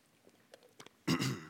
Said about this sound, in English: I'm still fighting off a cold, not COVID, a head cold. So bear with me as I repair my throat real fast.